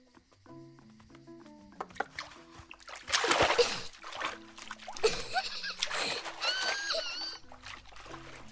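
A child splashes and plays with bath water, making a few bursts of splashing and trickling over steady tonal music.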